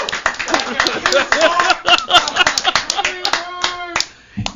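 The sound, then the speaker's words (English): Scattered hand claps from people in a room, sharp uneven smacks mixed in with overlapping talking voices, thinning out toward the end. “He gets a clap from everybody out of the room”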